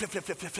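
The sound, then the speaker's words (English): A man's voice imitates a belt being yanked out of trouser belt loops, as a father removes it: a rapid, evenly spaced string of short, breathy syllables, fairly loud and dry, with no other sound around them. “That sound of the belt coming out of the belt loops, that's the sound of justice.”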